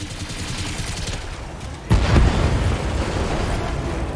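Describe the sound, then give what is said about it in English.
Video-game weapons fire and a blast as a Locust destroys an LRM turret: steady, crackling gunfire, then a loud explosive burst at about two seconds that settles into continuous rumbling fire. “move in close to the LRM turret and destroy it. Fire!”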